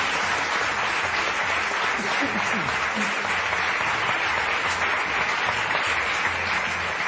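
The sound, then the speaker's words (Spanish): Audience applause for four guests at a live stage show, a continuous, steady wash of clapping that holds at an even loudness throughout, with no talk over it. “Pepe Colubi, un fuerte aplauso para los cuatro”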